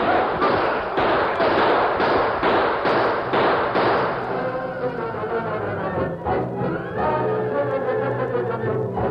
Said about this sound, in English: A few shots were fired, but the outlaws, taken by surprise and outnumbered, were quickly overpowered.